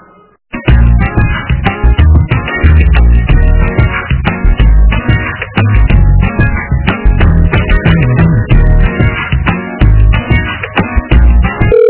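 Music on hold plays steadily and loudly over a telephone line while a call is being transferred to a school education office, with no talk over it.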